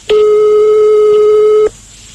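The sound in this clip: A telephone ring tone sounds while a call is placed: one loud, steady electronic tone of about a second and a half, alone.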